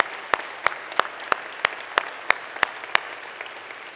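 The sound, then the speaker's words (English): A church audience applauds the Belhaven football team, a steady wash of clapping marked by loud claps that land in an even, regular rhythm. “Fonda Church, would you give it up for these guys who come to worship with us today?”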